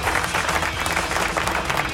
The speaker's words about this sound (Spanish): ¡Aplausos, aplausos!